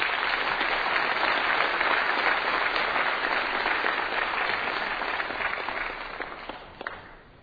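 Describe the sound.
An audience at a church service applauds to welcome a speaker: dense, steady clapping that holds evenly, then thins and fades near the end.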